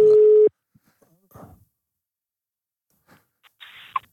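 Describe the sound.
A telephone ringback tone sounds while a call is being placed: one steady, single-pitched tone for about half a second at the start, then quiet with a few faint clicks and rustles.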